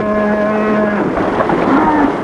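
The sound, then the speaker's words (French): A loud, deep cow moo inside a barn holding three dung-covered cows, a single drawn-out bellow of about two seconds heard alone with no talk. “Ça sent la pisse et les bêtes. Trois vaches pleines de bouse.”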